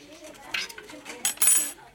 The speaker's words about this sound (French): On va essayer de couper un petit morceau proprement de pomme de terre.